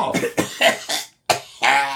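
A person coughs in a run of several rough, harsh bursts, a brief pause, then one or two more, fairly loud and with no talk over them.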